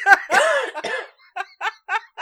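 Coughing and throat clearing from someone with a tickle in the throat: a few harsh, loud coughing bursts up front, then several shorter, softer rasping clears.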